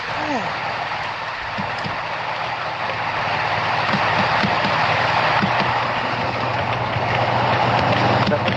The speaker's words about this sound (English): Is somebody driving a tractor through our podcast? No, oh, God, I'm sorry, that's me. I forgot I'm using the built-in microphone, so when I type, it's coming...